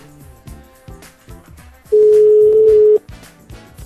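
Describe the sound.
Telephone tone sounds while a call is being placed, a single loud, steady tone lasting about a second that rises clearly above quieter background sound before cutting off.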